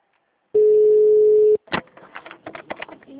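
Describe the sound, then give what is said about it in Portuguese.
A single steady, mid-pitched telephone ringing tone on an outgoing call sounds for about a second, then cuts off abruptly and a voice begins talking. “Alô? Alô? Ah, tá. Tá chamando.”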